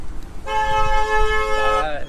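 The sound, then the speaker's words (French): A car horn honks in one sustained blast of about a second and a half. The tone is bright and steady, with a slight waver just before it stops, over faint background noise. “Désolé pour ce bruit de klaxon.”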